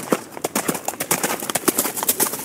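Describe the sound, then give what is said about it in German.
Hooves of mounted police unit horses training in Stahnsdorf near Berlin, with many brisk, irregular clip-clops on a hard surface throughout. “Und hier trainiert gerade zusammen mit ihren Kollegen Katrin Bahn bei der Reiterstaffel.”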